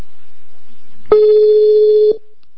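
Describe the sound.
Ringback tone of an outgoing telephone call: one steady, mid-pitched electronic tone lasting about a second, starting and stopping cleanly over faint background hum.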